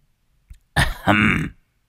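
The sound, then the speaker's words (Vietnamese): An old man clears his throat outside a gate: a faint click, then a gruff two-part hem, the second rasp longer and fuller, heard alone in silence. “ở bên ngoài cổng bỗng có tiếng hắng giọng.”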